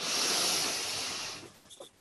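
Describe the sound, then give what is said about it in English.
One long inhalation through the nose during a relaxation exercise: a soft, breathy hiss that holds steady and then fades out about three quarters of the way through, followed by a few faint small sounds. “you just breathe in with your nose, breathe in.”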